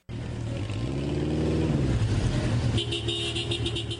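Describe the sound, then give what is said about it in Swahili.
A vehicle convoy moving through central Aden, Yemen: a continuous engine rumble with revving, and a car horn tooting near the end. “Katikati ya mji wa Aden nchini Yemen, msafara wa magari ukiwa na ugeni kutoka UNICEF akiwemo mkurugenzi mtendaji Bi Henrietta H4.”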